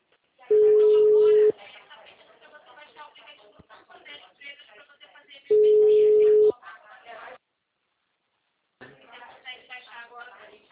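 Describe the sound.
After a dropped phone call, a telephone sounds two long, steady beeps of about a second each, several seconds apart, with voices talking between and after them.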